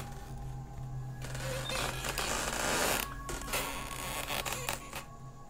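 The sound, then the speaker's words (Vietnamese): An old door hinge creaks in a long, continuous grinding groan with tonal streaks, holding a steady, fairly loud level for about five seconds. “rồi cả cái tiếng bản lề cửa lâu ngày kẽo cả kẽo kẹt”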